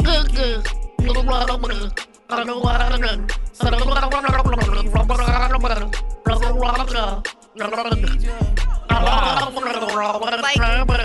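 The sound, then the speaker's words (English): Person gargling along to a song, a wet bubbling gurgle that follows a sung melody in long continuous phrases with short breaks, loud and steady over the music. “Can you gargle along to the song? I want to see how close you really were right there.”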